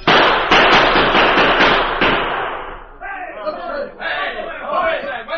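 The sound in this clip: Gunfire in a Western radio drama shootout: many sharp, loud cracks in rapid succession for about three seconds, then voices as the firing stops.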